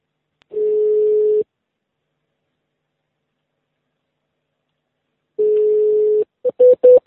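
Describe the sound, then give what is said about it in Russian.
Telephone ringback tone heard while dialing a call: two long, steady mid-pitched beeps about four seconds apart with silence between, followed by a few short, quick tones at the end. “еще раз набери, вот сейчас должна она взять, она сразу не берет”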